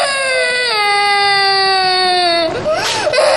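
A young child nearly old enough for primary school cries in one long, loud, sustained wail that sinks slightly in pitch, then breaks into choppy sobbing catches near the end.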